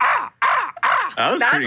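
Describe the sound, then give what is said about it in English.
A human voice imitates a crow cawing, giving four or five harsh, nasal caws in quick succession with short gaps between them. The last calls rise and break in pitch. “How about a crow? How about a crow?”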